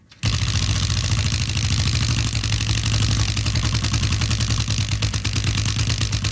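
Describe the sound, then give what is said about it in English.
A prize wheel spins, giving a dense, rapid ratcheting clatter that runs steadily for about six seconds over a low, even hum, with no voices. “Spinning longer than anticipated. Maybe I shouldn't have hit it that hard. Okay, it's spinning backwards now.”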